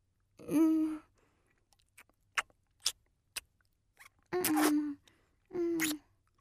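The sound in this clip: Steak being chewed gives a few soft, moist mouth clicks and smacks. They fall between three longer, steady hummed vocal murmurs of enjoyment.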